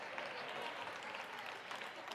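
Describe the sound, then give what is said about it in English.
Faint audience clapping, a soft, even wash of many hands with no voices over it, holding steady for about two seconds. “Well, you ought to clap because I'm telling you the truth tonight.”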